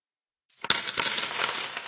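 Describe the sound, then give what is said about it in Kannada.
Coins drop and clatter after a brief silence, a quick metallic jingle that settles into a shimmering ring. “ನಾಣ್ಯ ನಾಣ್ಯ ನಾಣ್ಯ ನಡೆಯುತ್ತಣ್ಣ ಅಣ್ಣ.”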